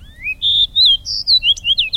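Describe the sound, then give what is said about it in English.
A golden-crowned sparrow and a fox sparrow sing from a hedgerow on an October morning, giving clear, high whistled notes. The notes slide and step through a quick series of sweet phrases, with no voices present. “a golden-crowned sparrow sings plaintively from a hedgerow. And soon a fox sparrow chimes in.”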